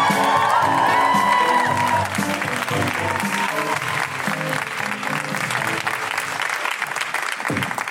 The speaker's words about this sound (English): put your hands together and make incredible woohooing noises for the wonderful Njambi McGrath!